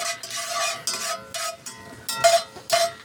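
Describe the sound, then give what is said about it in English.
Cardamom pods and cloves cooking in hot oil in a pan, heard as several bursts of scraping and stirring with a metallic ring and a faint sizzle, fairly loud and with no talk. “5 cardamom pods and 5 cloves. So we're just going to flavor the oil and drop it in here. Cook it for just a few seconds.”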